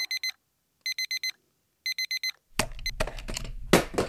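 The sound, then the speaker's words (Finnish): Alarm clock ringing early in the morning: three bursts of four rapid, high, bright beeps separated by pauses, followed by a loud clatter and rustling noise as the beeping stops. “Herätyskello alkaa soida 5 sekunnin kuluttua.”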